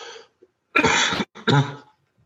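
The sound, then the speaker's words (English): A person clears their throat in a few harsh, rasping bursts separated by short pauses, fairly loud and with no talk. “practitioners, clear throat.”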